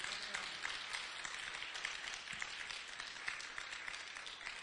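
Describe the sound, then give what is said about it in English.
Applause from a live church audience: dense, even clapping that continues throughout at a fairly quiet level, with no voices. “Let's go ahead and say amen to our live audience who's with us right now. Let's give a hand for them.”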